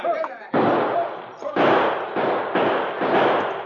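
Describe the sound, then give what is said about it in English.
Gunfire sound effects for a radio drama set in a canyon: several loud, sharp bursts, each decaying into a rough tail, with short gaps between them. “5 minutes, Kendall and his men blasted away.”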